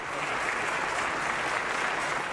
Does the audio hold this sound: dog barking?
no